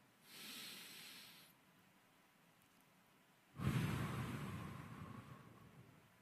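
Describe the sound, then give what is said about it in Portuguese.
Deep breathing during a guided calm-breathing moment: a soft, airy breath drawn in, a short pause, then a longer, louder, breathy breath pushed out that slowly fades, with no talking. “Fecha o olho agora e respira profundo comigo, vai.”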